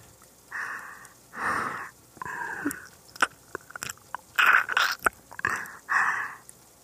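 Juicy, salty food being bitten and chewed while tasted: a run of wet, crunchy mouth bursts and sharp clicks in uneven rhythm, with breathing between bites and no talk.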